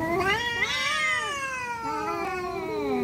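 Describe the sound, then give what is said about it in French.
A cat's yowl: one long, continuous caterwaul lasting the whole clip, with harmonics that bend up and down in pitch. No talk is heard. “On dirait pas que c'est un chat, mais c'est un chat, si, je vous assure.”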